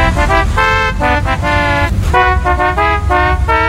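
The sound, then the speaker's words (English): A novelty car horn at a car dealership plays a programmed musical phrase: many loud, short tonal honks in a lively repeating melodic pattern, with a brief pause near the middle before the tune carries on. “Now at A&M Autoland, purchase any car and we'll program a novelty car horn with the musical phrase of your choice.”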